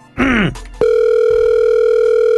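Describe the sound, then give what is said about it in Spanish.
Telephone dial tone heard while a call is being dialed: after a brief voiced sound, a loud, steady, unbroken tone holds to the end. “Nomás no haga ruido, mi amor, ya le estamos marcando”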